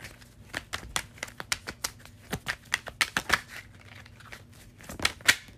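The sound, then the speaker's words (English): Tarot cards are shuffled and drawn with many quick, irregular clicks and snaps, some sharper than others, broken by short pauses and with no talk over them. “All right. Let's get a few more cards.”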